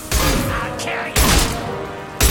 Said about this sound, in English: You feel that rate of fire? That's like as fast as this shotgun can fire.